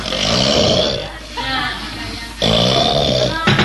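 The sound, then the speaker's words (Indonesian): Snoring voiced by a wayang puppeteer for the character Raden Burisrawa: a loud, rough, guttural rasp that imitates a sleeper and runs in a few long, sustained stretches. “Wah menika Raden Burisrawa sampun ngletak ngorok.”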